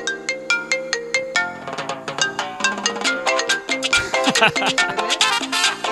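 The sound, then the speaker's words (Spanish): A phone ringtone for an incoming call plays a bright, busy electronic melody of many quick, repeated notes. It is loud and steady throughout, with no talking over it. “La única forma de saber si es falso es con el tono de la llamada. ¿Lo quieren escuchar?”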